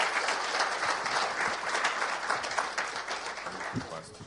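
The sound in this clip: A church audience applauds to welcome speakers at an evening service, a steady, even wash of clapping that eases off slightly near the end.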